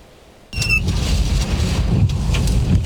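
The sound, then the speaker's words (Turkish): Strong wind ahead of a tornado in daytime in Ahlat, Bitlis, caught on a phone camera: a sudden gust slams in and settles into a steady, loud, low roaring rumble buffeting the microphone. “Önce şiddetli rüzgar, ardından hortum geldi. Çatı parçaları havada uçuştu.”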